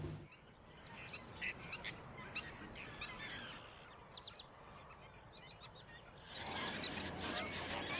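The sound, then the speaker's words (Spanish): A flock of flamingos calls across the salt pans of a river delta. Many overlapping goose-like honks, fairly faint, sound over a steady background hiss. “Hace un seguimiento de los flamencos, unas de las pocas aves que toleran la salinidad de estas aguas.”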